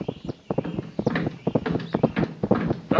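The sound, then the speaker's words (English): Hoofbeats from the horses of General Lee and his staff: many steady clip-clopping steps in an even walking rhythm, sharp and distinct, with no voices. “Hoof steps. It's General Lee and his staff, sir.”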